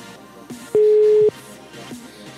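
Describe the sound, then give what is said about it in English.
A phone line sounds one steady, mid-pitched electronic tone that holds for about half a second. It stands out clearly over a faint, busy background. “Why does it make that ringtone? That is unusual.”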